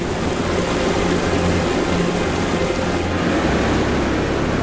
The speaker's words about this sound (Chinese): 大量融水流向低处，水流不断汇合变成急流